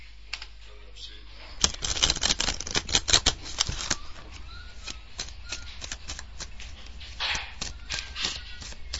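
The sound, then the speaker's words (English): Dealing of cards in a computer Blackjack game, heard as many sharp, quick clicks in irregular bursts. They are densest near the middle and thin out toward the end. “Nu giver han kort.”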